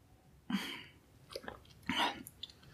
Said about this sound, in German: Und jetzt nehmen wir noch einen kräftigen Schluck von diesem leckeren Getränk.